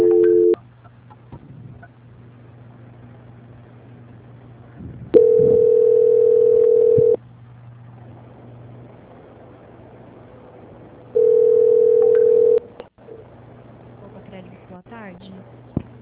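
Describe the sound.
Telephone tone while a call is being transferred: long, steady, unchanging beeps, two full ones about two seconds each with a longer quiet gap between them, over a constant low hum.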